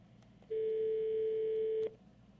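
A single steady electronic telephone tone sounds as a call is put on hold. It holds one unwavering pitch for over a second, then cuts off, with no talk.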